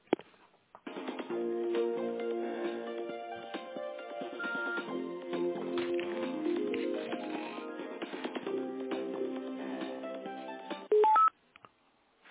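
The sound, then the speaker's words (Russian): Telephone dialing tones during an office call transfer: a steady sequence of electronic tones over a narrow phone line that runs for about ten seconds and ends with a brief louder burst. “Давайте-ка я переключу вас.”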